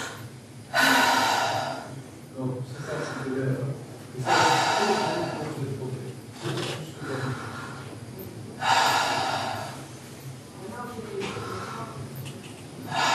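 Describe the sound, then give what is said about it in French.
Deep breaths drawn through a patient's mouth during a medical examination of the lungs: a few loud, hissing inhalations come in regular rhythm, each followed by softer, quieter exhalations. “Alors, respirez par la bouche.”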